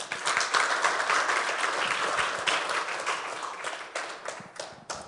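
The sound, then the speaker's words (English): Church audience applauding to welcome a speaker, dense and steady clapping that holds for several seconds and thins slightly toward the end. “Let's give him a warm welcome, shall we?”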